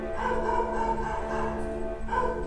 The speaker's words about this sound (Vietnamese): Bắt đầu đến giờ chó sủa.